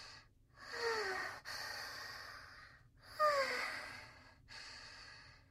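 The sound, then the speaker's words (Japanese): A person breathing deeply: two slow, audible breath cycles with soft, airy rushes and a slight nasal snort, faint and alone without speech. “深呼吸しなきゃ。”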